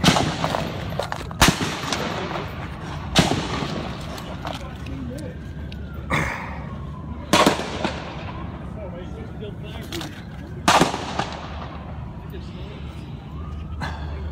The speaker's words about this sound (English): when a gunman showed up and opened fire